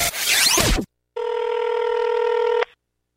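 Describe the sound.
A telephone gives a single ring, a steady electronic tone lasting about a second and a half, after a short burst of noisy sound.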